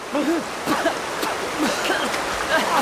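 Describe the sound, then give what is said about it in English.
Rushing river rapids make a steady, dense roar of churning water that fills the whole clip, with voice-like cries rising faintly over the wash. “Kevin managed to swim to land, but Yossi was swept away by the rapids.”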